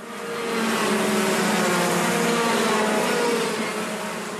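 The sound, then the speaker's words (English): Go-kart engines racing around a track at Watergrass Hill, Cork, forming a loud, steady buzzing drone that holds throughout and fades slightly at the end, with no talk. “Nicole gets on with it at go-kart tracks around Ireland, like this one in Watergrass Hill, Cork.”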